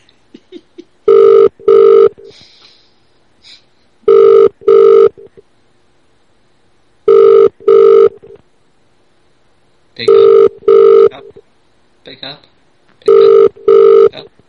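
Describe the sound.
An outgoing telephone call rings unanswered, its ringback sounding as five evenly spaced double rings, loud and regular, with faint voices in the gaps.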